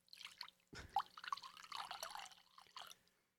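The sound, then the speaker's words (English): Alcohol poured out at length, a faint, irregular trickle with small splashes and drips that runs for about three seconds before fading away. “I poured a lot. You think? Well, I kept pouring because it was funny for the sound”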